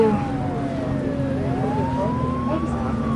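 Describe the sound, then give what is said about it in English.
A police car's siren wails steadily as it overtakes a coach on the road. The tone slides down, then climbs back up over a constant low rumble of traffic. “The cop car overtakes the coach with lights flashing.”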